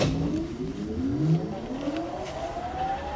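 Factory machines power up. Several whining tones climb steadily in pitch over a constant rumbling mechanical noise.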